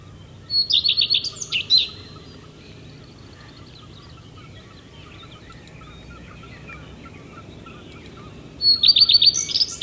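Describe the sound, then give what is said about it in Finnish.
Common redstart singing: two short, high, warbling phrases, one near the start and one at the end, separated by a long stretch of faint low rumble. “Tässä tulee leppälinnun ääni, älä Pirkki säikähdä.”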